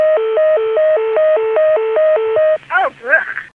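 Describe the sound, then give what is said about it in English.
A telephone exchange deedle signal on a Dimension PBX reached over poor T-carrier trunks warbles between two alternating electronic tones at an even pace, then stops and gives way to a brief voice-like sound. “Let's hear the deedle in 480.”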